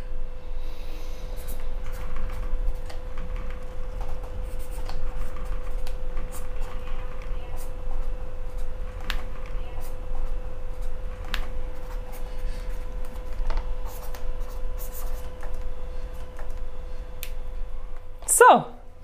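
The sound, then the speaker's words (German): A pen writes on paper during an interview with faint, intermittent scratching strokes over a steady low background hum. A short, louder scrape comes near the end. “Mal schauen. Was Sie schreiben. Was ich schreibe.”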